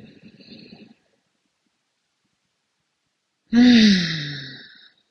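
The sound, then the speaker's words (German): A deep breath taken during a guided belly-breathing exercise: a faint breathy inhale, a silent pause, then a long, loud, voiced sighing exhale that falls in pitch and fades out. “Nehmen noch zwei weitere Atemzüge so tief in den Bauch, lass den Bauch nach außen wölben”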